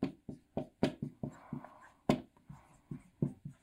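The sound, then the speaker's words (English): Writing on a board: a quick series of short, scratchy strokes in an uneven rhythm, moderately faint, with no talk over them. “Let me erase this. I'll write them down so you can stare at them the last 2.5 minutes that I talk.”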